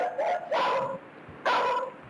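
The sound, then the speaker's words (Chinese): Furious barking of a guard dog in a courtyard at night: a few loud, harsh barks in quick succession, then a short pause before one more bark. “看家狗突然从窝里冲了出来，跑到院子中央，冲着画面外的一个方向狂吠不止。”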